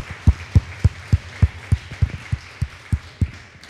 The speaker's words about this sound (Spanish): Denle un fuerte aplauso al que merece toda gloria y honra.